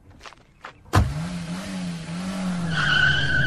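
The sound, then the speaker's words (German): A car skids into a parking lot during a getaway: a sudden loud screeching onset, then a steady engine drone joined near the end by a high, sustained tire squeal. “Perry hat's gerade nur so mitbekommen. Er fährt auf den Parkplatz.”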